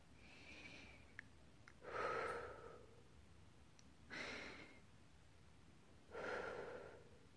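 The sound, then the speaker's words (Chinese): Deep breathing in and out, three slow, airy breaths spaced about two seconds apart, each swelling and fading softly over a quiet background. “吸气，吐气，再吸气，吐气，”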